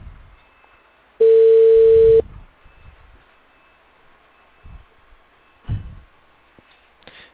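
Ringback tone on a telephone call: one steady, clear mid-pitched tone lasting about a second, then near silence with a few faint rustles and soft knocks.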